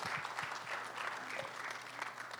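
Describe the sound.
A church audience applauds to welcome a pastor to the front during a morning service, with steady, even clapping from many hands holding at a constant level throughout.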